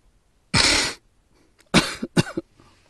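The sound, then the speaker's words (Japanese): Coughing from someone with a congested, runny nose: one long, harsh cough, a short pause, then a quick cluster of several shorter, choppy coughs, with no talk. “すごいズビズビ入ってそう。ほんとごめんなさい。”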